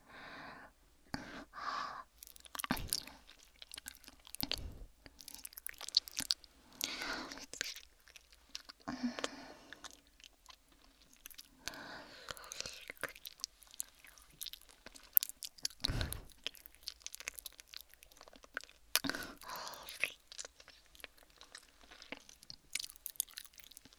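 Wet mouth sounds of chewing and nibbling on fingers, faint and close, with many soft, irregular bites, crunches and smacks separated by brief quiet gaps.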